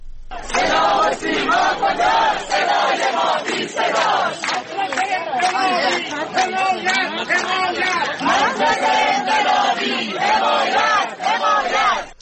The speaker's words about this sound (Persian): این صدای تجمع کنندگان در شیراز است.